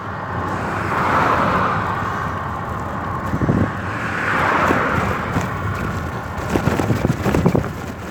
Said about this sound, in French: Un bus. Voilà, je les reconnais au son maintenant. Ouais, je savais que c'était un Mercedes.